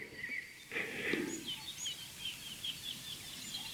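Tits call outdoors in a run of short, high chirps and tweets that repeat through the whole stretch. The calls stay faint and thin against a quiet background hiss.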